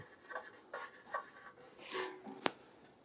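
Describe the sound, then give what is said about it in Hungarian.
Handwriting as someone signs near the bottom of a surface, a few faint scratchy pen strokes in short bursts, ending with a sharp little tick as the pen taps down. “Alap a talaj, én alulra írom.”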